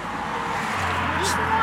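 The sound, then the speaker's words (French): A car pulls up and stops, its low engine rumble settling into a steady idle hum, with a brief hiss near the end and voices talking over it. “Une voiture s'arrête.”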